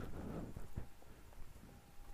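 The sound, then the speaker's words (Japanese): Footsteps of someone walking through the neighborhood after a visit to the public bathhouse, faint, irregular steps set against a steady background hiss. “近所の銭湯に行ってきた帰りに散歩しているところです。”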